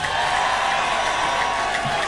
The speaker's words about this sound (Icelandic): gefa hann gott klapp